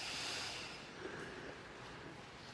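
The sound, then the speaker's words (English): Breath is drawn deeply in through the nose, a soft, steady, breathy hiss lasting over two seconds that eases slightly toward the end, with no talk. “So let's inhale together, inhaling deeply.”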